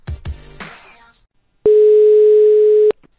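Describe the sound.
A telephone dial tone sounds as a call is placed: one steady, unbroken, loud tone lasting just over a second, coming after brief talking.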